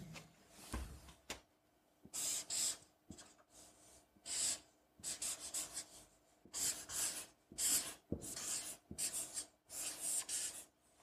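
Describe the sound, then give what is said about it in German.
A pen marker drawing on a whiteboard, with many short scratchy strokes separated by brief pauses, quiet and alone. “Und diese zwei Punkte, die werde ich einmal mit dem Stift hier an das Whiteboard malen”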